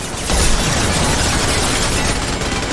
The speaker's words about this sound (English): Wow, it just explodes instantly.